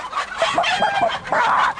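A person imitating a clucking chicken with a few choppy, irregular clucks, then a drawn-out squawking cluck near the end, fairly loud and with no other sound.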